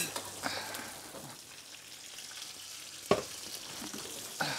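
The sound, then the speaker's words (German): Food sears in a pan on an old stove, a faint, steady hiss of frying broken by a few sharp knocks and clatters. “Braten wir nochmal an.”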